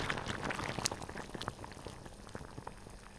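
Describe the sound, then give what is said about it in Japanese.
Salted water at a rolling boil bubbles as halved petit vert sprouts are blanched briefly. The simmer is soft and steady, a continuous fizzy seethe with scattered tiny pops, faint throughout. “プチヴェールは大きければ半分に切って、多めの塩を入れたお湯でさっと塩ゆでします。”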